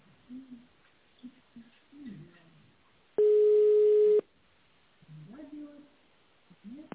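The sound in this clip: A telephone ringback tone plays while a caller waits on the line to be connected to a company secretary. It is a single steady, mid-pitched tone lasting about a second, with voices talking before and after it.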